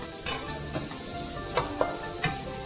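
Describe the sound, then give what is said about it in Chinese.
Onions, scallions and green peppers stir-frying together in a pan: a steady sizzle, with a few sharper stirring strokes that rise briefly above it. “全部都一起下去炒。要炒到呢，这些材料都炒软了，好，那你可以从洋葱看得出来，炒软了就是洋葱呢变透明了”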